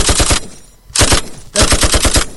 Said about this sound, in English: It captures the gunshots.